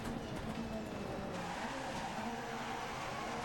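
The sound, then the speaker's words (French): Faint racing-car engine drone with tire skidding as a car is shoved off the track in the video game DiRT 2.0. A low rumble continues steadily through the whole clip. “On m'a poussé en extérieur de piste.”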